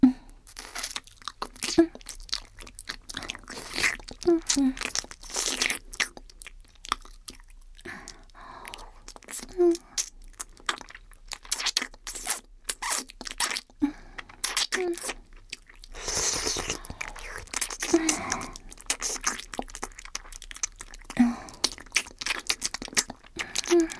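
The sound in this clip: Wet mouth sounds of nibbling and biting on an ear, with many soft, crunchy, chewing-like clicks and smacks in an irregular rhythm, moderately quiet and close throughout.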